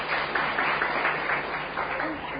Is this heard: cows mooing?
no